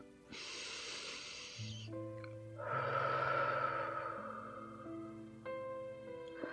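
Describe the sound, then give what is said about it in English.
A slow, airy inhale through the nose, then a longer, fuller exhale through a slightly open mouth, heard over soft, sustained tones. “Breathe in from your nose and exhale from your slightly open mouth.”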